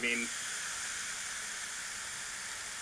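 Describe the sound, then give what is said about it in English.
Meat searing on a cheap $25 panini press gives a steady, quiet sizzling hiss that holds at an even level from beginning to end. “You hear that searing?”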